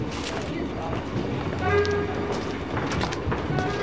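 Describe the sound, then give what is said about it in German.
Railway station ambience with trains at Euston station in London in the early evening: a continuous loud rumble and clatter of rail traffic with a steady tonal hum partway through, under a murmur of voices. “Früher Abend, Bahnhof Euston im Nordwesten Londons, der die Stadt mit Reisenden aus ganz England verbindet.”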